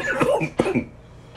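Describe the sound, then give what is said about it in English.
A man coughs and clears his throat in two short, rough bursts close together, followed by quiet. “Excuse me. Excuse me. Sorry about that. Something got in my throat.”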